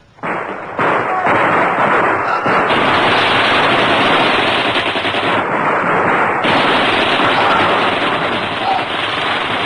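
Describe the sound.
Gunfire in a battle scene of a radio drama: loud, dense, continuous machine-gun fire that starts abruptly and keeps rattling without a break to the end.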